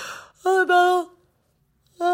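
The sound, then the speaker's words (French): A yawn from a person: a breathy intake rises into a drawn-out voiced tone of steady pitch lasting under a second, then another voiced sound begins just before the end. “Je baille.”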